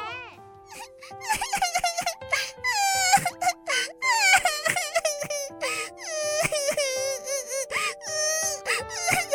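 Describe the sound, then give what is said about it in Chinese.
A voice imitates a little white rabbit crying, with high, wavering sobs and wails that rise and fall. Steady music plays underneath throughout. “小白兔，小白兔，你怎么啦？你怎么在哭啊？”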